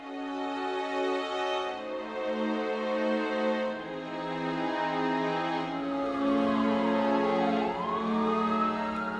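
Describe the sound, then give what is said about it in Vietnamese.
An ambulance siren wails in a village, a sustained tonal blare with rich harmonics holding steady notes, then sweeping down and rising again near the end, loud and continuous with no voices. “Những tiếng còi báo từ chiếc xe cứu thương làm kinh động cả góc làng Phúc Lượng.”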